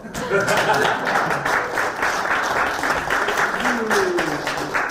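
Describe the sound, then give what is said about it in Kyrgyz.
An audience applauds to welcome the next group at a comedy show, with dense, steady clapping under a speaking voice throughout. “Эми кийинки топту тосуп алалы силердин кол чабыңыздар менен.”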